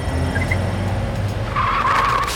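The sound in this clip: A car drives through streets with a steady, dense rush of engine and road noise, and a high, sustained tire squeal rises out of it in the second half.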